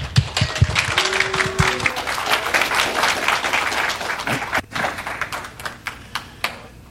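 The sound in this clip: A church audience applauds to welcome a guest speaker. Dense, loud clapping thins into scattered individual claps near the end.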